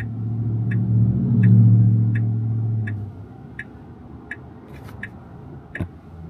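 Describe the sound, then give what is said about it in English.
A car's hazard lights tick steadily, many light, evenly spaced clicks about twice per second, over a low engine rumble that fades after the first few seconds. “All right, so we got hazard lights on.”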